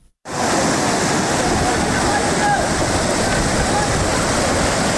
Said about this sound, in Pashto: دا د نړۍ ولسوالۍ او اسدآباد ترمنځ د سونک خوړ دی چې په کې تیر شوی سړک اوبو وړې دی.